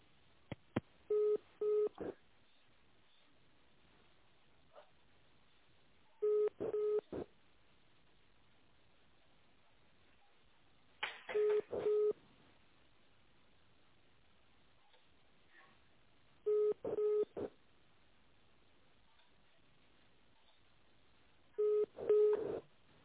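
Telephone dialing tones while a call is being connected: five short clusters of beeps spaced about five seconds apart, each a quick run of tones, with a quiet, thin-sounding phone line between them.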